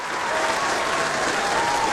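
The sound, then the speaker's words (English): A group applauds a quiz winner with dense, even clapping. It swells slightly just after the start and then holds steady for the full two seconds, with no voices over it. “Oh, we need some applause. We certainly do.”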